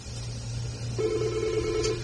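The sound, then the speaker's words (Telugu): A telephone rings with an incoming call: a steady electronic tone begins about halfway through and holds to the end over a low, constant hum. “అబో మంచి timing ఎవరో call చేసేసారు, చూద్దాం.”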